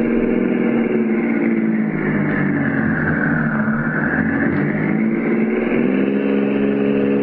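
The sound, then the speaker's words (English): A car engine as the vehicle drives around the block and comes back, a steady mid-pitched drone that dips slightly in pitch midway and then climbs again, heard alone without voices. “Thought they might do that. They drove around the block and came back to make sure.”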